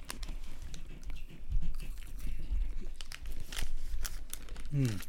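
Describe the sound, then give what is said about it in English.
A crunchy snack is eaten with a steady stream of crinkling and crunching, mixed with packaging rustles, under ongoing conversation between people. “Yeah, it should be a good bite. All right. Nice snack.”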